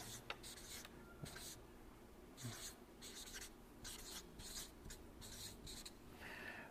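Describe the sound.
Faint handwriting: a pen scratches out text in quick bursts of strokes separated by short pauses, soft and dry, with no talk.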